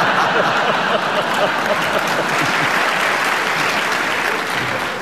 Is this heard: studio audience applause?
yes